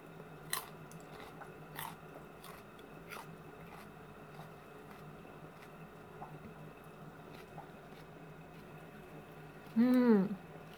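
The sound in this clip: Faint, crisp bites and crunches of someone chewing Caesar salad with a light cheesy dressing come in a few sparse, scattered bursts over a quiet background. A brief squeaky sliding tone sounds near the end.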